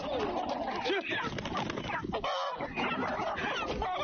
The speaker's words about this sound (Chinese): 我们的鸡气血旺盛，也很强壮，你可以看到我们的鸡它的腿都会很粗壮。